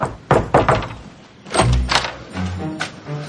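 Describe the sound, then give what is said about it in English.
A door is slammed shut on someone's hand, heard as a few heavy thuds and knocks, with a cluster of sharp impacts early on and more muffled bangs after. “Jeez, he just slammed the door on Jeff's hand.”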